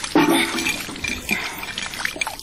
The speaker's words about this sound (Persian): باش که من این سطل خالی کنم.